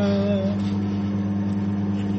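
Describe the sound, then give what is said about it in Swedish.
A microwave oven runs while heating a small splash of coffee, giving off a steady, continuous low electric hum with a faint higher tone near the start. “Så därför blir det faktiskt att köra en liten skvätt i micken.”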